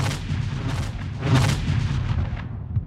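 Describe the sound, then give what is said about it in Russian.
Katyusha rocket artillery fires a salvo, a loud, continuous roaring rumble of many launches in rapid, overlapping succession, sustained throughout. “«Катюша» стреляет залпами, то есть не одним снарядом, а сразу многими.”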